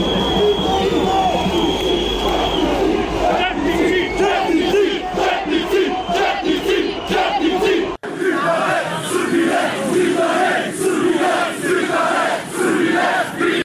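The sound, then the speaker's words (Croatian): Loud crowd ovations for opposition MPs outside parliament, a dense wall of many voices cheering and shouting without pause across the whole stretch. “dok su ovacijama pozdravili poslanike opozicije koji su izašli i aplauzom pozdravili okupljene.”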